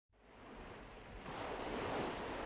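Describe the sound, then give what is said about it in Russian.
Ocean waves breaking on the shore make a broad, hissing roar that starts abruptly, then swells louder about halfway through and stays full, mixed with wind noise and no voices. “В раздумье сел герой на берегу у вечно шумящих вод океана.”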